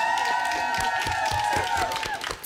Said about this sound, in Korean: 브라보, 박수.